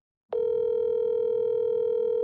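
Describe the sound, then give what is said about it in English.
A telephone rings on an outgoing call: after a brief silence, a steady pitched ringing tone starts abruptly and holds unbroken to the end. “and then it rang a second time.”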